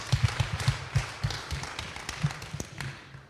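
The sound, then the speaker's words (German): Audience clapping at a church gathering, heard as scattered, uneven claps and taps at moderate level with gaps between them rather than a full ovation. “Put your hands together for Susa. Ja, lass mal klatschen.”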